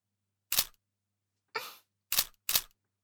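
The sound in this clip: Four sharp camera shutter clicks, irregularly spaced with a long gap after the first, each a brief bright snap against silence.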